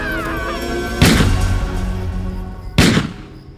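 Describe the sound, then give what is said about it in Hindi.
Two sharp, loud gunshots crack out about two seconds apart, each a sudden burst that fades quickly over a quieter, steady background. “अपनी जान बचाने के लिए रमेश ने अचानक कर उस पर फायरिंग कर दी”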